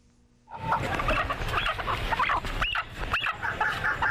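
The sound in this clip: Birds kept in small iron cages call and cluck over a dense, continuous din, with a few sharper chirps standing out now and then.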